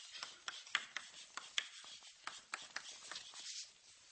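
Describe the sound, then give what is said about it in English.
Writing: many quick scratchy strokes and light taps in an irregular rhythm, faint and without talk. “Let me just write it here.”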